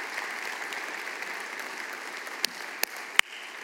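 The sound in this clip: A church audience applauds a former pastor returning after 49 years of ministry: soft, steady clapping from many people, with a few sharper, louder claps standing out near the end.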